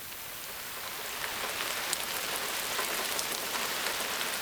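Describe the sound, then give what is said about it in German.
Steady rain falling, a dense, even hiss of countless drops pattering on a surface, swelling slightly after the first second and then holding at a constant level with no voices. “Kaum liegst du in deinem Körbchen, beginnt es auch schon zu regnen.”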